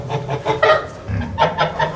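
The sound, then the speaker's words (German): A flock of agitated, frightened geese cackles in a rapid run of many loud, nasal honks that overlap one another. “Ist ja, eine Gans ist ja ein Herdentier. Die leben ja in einer Herde.”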